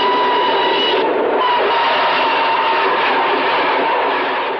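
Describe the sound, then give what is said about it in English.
A train speeding past as a loud, continuous rushing roar that holds steady throughout with a faint tonal whine in it, and no voices. “As Peter stares at the train speeding past, the spreading red stain reappears in his vision.”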